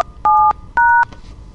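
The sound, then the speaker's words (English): Two telephone keypad DTMF tones dial an extension on an automated phone menu. Each bright dual-pitched beep lasts about a quarter second, and a short gap separates them. “I don't have to press pound, but I like to because it keeps your numbers.”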